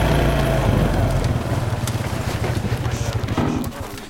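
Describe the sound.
ATV engines run as riders pull up and stop, a low, throbbing, rapidly pulsing rumble that eases slightly in loudness toward the end.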